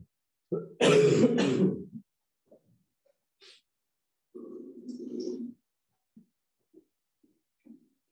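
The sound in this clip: Throat clearing and coughing from a tickle in the throat: one loud, harsh burst, later a softer, low throaty rasp, with a few faint clicks between.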